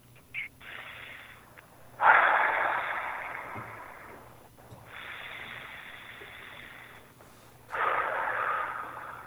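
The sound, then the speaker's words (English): A person inhales and exhales deeply in long, airy, hissing breaths that swell and fade, with a brief short breath near the start, fairly quiet and with no talking. “Can you take a couple breaths, inhale and exhale for me again?”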